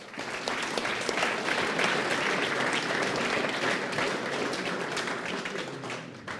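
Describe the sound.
An audience applauds to thank a speaker at a meeting, giving dense, sustained clapping that holds loud and even for several seconds before easing slightly at the end.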